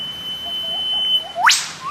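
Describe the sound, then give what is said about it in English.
A bird pair calling in an antiphonal duet. A sharp, whip-like note sweeps rapidly upward in pitch, and another call begins at the end. Softer short notes sit over a faint, steady high tone. “In Mark's recording, you can hear really clearly that this is a call and response. It's the pair. One goes ooh whip, and the other one goes choo choo, or a choo choo, or chuck chuck, or a woohoo hoo.”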